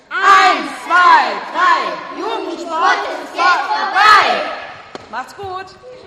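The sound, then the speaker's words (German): Children from a gym course chant a team battle cry together at a farewell, hands stacked. The chant is a rhythmic run of loud, high-pitched shouted syllables, ending with a few shorter calls. “Jetzt gibt es hier eine Verabschiedung in der Turnhalle vom Kinderkurs. Da gibt es noch einen Schlachtruf, wurde mir gesagt, den wollen wir natürlich hören.”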